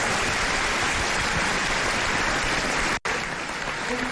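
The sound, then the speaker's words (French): Standing-ovation applause in a hall: dense, loud, steady clapping from a large audience that continues throughout, broken by one brief cut near the end. “Lançant le standing ovation de la salle pour le docteur Pape Farid Sey”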